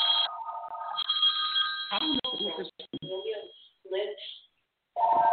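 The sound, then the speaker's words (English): A telephone ringing for an incoming call, its high, bright electronic rings sounding at the start and again at the end, with people talking over and between the rings. “I'm going to turn this phone off. And that other phone is one of my four daughters calling”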